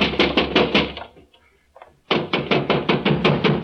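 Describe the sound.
Urgent pounding on a door: a burst of loud, evenly spaced knocks, a pause of about a second, then more rapid knocking at the same pace.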